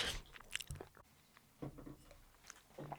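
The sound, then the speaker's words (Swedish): People smack their lips and chew cheese right into microphones, giving wet, squishy mouth sounds and soft crunches in irregular bursts. The sounds are quiet, close and heard alone without talk. “det här tror jag folk älskar eh, att höra på folk som smaskar med ost i mikrofoner sådär.”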